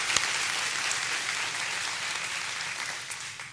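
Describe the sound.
Church audience applauding and cheering to welcome a guest Bible teacher to the stage, a dense, continuous wash of clapping and cheers at steady loudness throughout.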